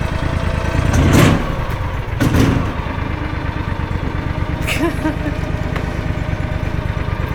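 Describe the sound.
A vehicle engine revved hard by a driver struggling with the gears, two loud surges rising over a steady, rumbling idle before settling back to a constant engine drone.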